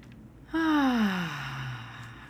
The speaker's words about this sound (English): let's take a nice, long, slow, deep breath in.